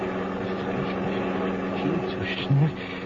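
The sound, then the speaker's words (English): A car engine racing at high speed, a loud, steady roaring drone mixed with rushing noise that holds throughout without letting up. “Slow up the motor. Listen to me. The motor, slow it up.”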